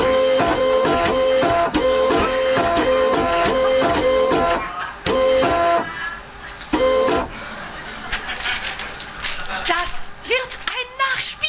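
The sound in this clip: A printer printing: a loud, repetitive mechanical pattern of whirring and clicking passes that stops and restarts, then gives way to busier, irregular noise, with voices at times.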